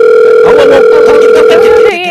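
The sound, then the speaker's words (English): A telephone rings with an incoming call, a loud, steady electronic tone held for nearly two seconds before cutting off abruptly. “This is exciting. We actually get a phone call.”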